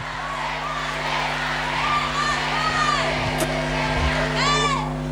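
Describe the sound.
A large crowd chants "stay" at a footballer during a women's team celebration of a fourth Champions League title. A sustained roar carries a repeated rising-and-falling chant of many voices.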